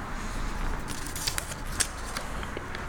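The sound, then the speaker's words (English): Light rustling and small clicks as a guest draws a question card out of a box of cards, with faint, brief scrapes and ticks and no talk. “you can draw your first question. Like I said, there's cards. There's all kinds of stuff in there. You can pull whatever you want out.”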